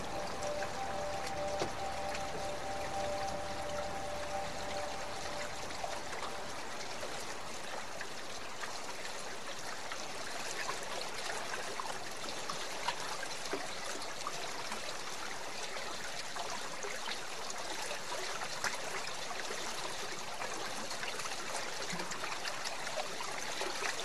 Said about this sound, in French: c'est sûr que la rivière Bas-du-Nord, pour moi, c'est le bruit de l'eau d'abord.